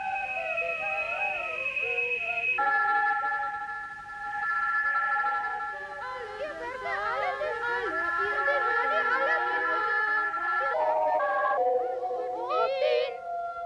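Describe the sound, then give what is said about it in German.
A 1956 electronic composition blending electronic sounds with recordings of a singing voice: sustained, whistle-like electronic tones and gliding vocal pitches weave and shift together continuously, with layers changing several times throughout. “Und da lässt er elektronische Klänge zusammen mit Aufnahmen einer Singstimme wirken. Das hört sich ungefähr so an.”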